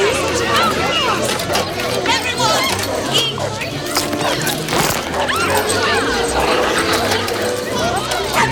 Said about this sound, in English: Fluffy barks at Dipstick.